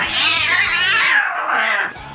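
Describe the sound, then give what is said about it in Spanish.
A cat meows loudly in two drawn-out, wavering cries, the first longer and the second shorter after a brief pause. “Una madre pilla a su hijo a punto de licuar a su gato.”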